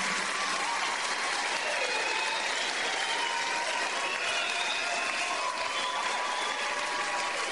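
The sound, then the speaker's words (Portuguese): A church audience applauds, with dense, even clapping that holds steady throughout without a break. “Put your hands together for the Lord. Uma salva de palmas para o Senhor.”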